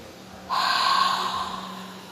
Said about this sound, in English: And take a deep breath,